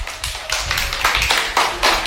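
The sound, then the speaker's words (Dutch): Applause from a small group rewarding a correct answer in a word-guessing game, made of fairly loud, uneven bursts of overlapping claps that rise and dip without settling into a steady rhythm. “Applaus!”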